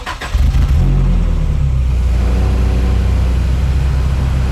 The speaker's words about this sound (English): We're all inside the jeep, so let's get going.